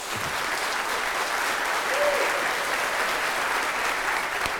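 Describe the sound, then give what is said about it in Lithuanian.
Steady, dense audience applause welcomes a guest onto a live talk show in Telšiai, holding at an even, loud level for the whole stretch with no voices over it. “Plojimais pasitikime.”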